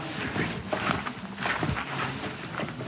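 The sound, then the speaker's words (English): Footsteps climb a steep hill through a tunnel in the Cappadocia caves in Turkey, heard as irregular scuffing steps over a constant rushing background noise. “We're climbing a steep hill through a tunnel and crouching down.”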